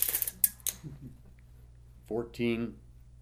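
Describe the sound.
A tape measure being pulled out: a short burst of scraping, rattling clicks with one sharp snap, then someone speaks briefly.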